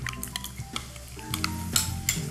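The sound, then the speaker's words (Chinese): Mayonnaise and mustard being stirred together, with a utensil giving soft scrapes and a few light metallic clinks against the dish, irregular and fairly quiet, with no talking. “我们把这个美乃滋跟这个芥末酱混合。”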